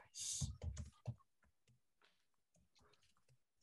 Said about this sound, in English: That came up when I was typing this.